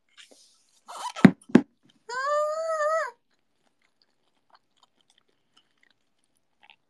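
Someone chews food while eating, producing a few sharp crunchy bites followed by a short, steady voiced hum, then near silence.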